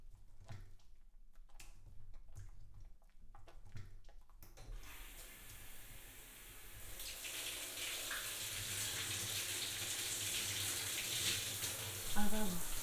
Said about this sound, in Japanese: 流していきます。動かないでください。泡が残ってはいけません。